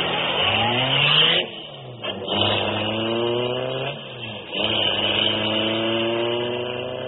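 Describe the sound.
A car engine revs and accelerates as the vehicle races away, its loud droning pitch climbing in a few surges with brief dips between, like gear changes, continuous throughout.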